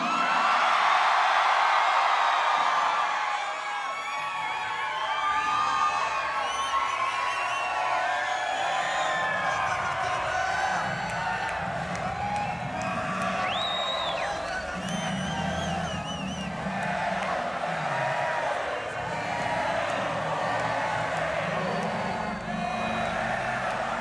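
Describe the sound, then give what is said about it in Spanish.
A rock concert crowd shouts and cheers in a continuous, dense roar, with high whoops and cries rising above the steady mass of voices throughout. “Yo creo que llegó el momento de que ustedes griten un poquito, ¿no?”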